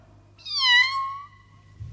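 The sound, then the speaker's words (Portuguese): A kitten gives a single clear meow, a bright, high-pitched tonal cry lasting under a second, heard alone over a quiet background. “Alice, deixe a gatinha sossegada e preste atenção à aula de história.”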